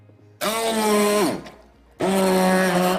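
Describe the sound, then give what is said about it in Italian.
Blender whirring through a sauce of salt, pepper and mustard in two loud bursts: the motor runs high and steady, winds down with falling pitch, pauses briefly, then starts up again. “La senape e poi adesso diamo... Iniziamo a frullare, poi vediamo se ci aggiungeremo l'olio di semi a filo.”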